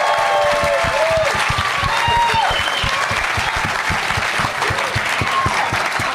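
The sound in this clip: Studio audience applause for a comedian guest on a talk show: a dense, steady clatter of many hands clapping that stays loud and even from start to finish.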